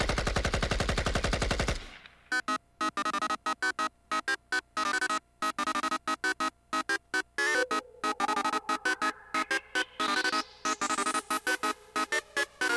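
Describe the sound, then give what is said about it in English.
Rapid automatic gunfire from an AK-47 rifle, fired in many short, sharp bursts with brief gaps between them, loud and without talk. “Here we go. AK 47, the very best day. When you absolutely positively got to kill every motherfucker in the room.”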